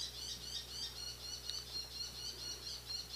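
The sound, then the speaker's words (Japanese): A bull-headed shrike calls in a faint, continuous string of high, rapid chirps that repeat at an even rhythm, above a steady low hum. “今鳴いてる鳥分かりますか？今鳴いてるあれはモズですね。”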